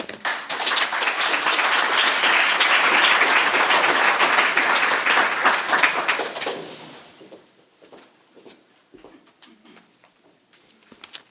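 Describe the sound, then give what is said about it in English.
An audience applauds to welcome a reader at a personal-essay reading night. Loud, dense clapping lasts about six seconds, then thins to scattered claps and faint rustling. “Please give a warm welcome to Kimberly May.”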